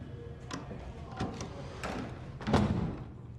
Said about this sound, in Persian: درو ببند.